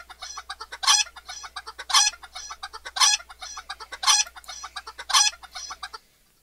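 Recorded chicken clucking plays on its own as a steady stream of soft clucks, with a louder, sharper cluck about once a second.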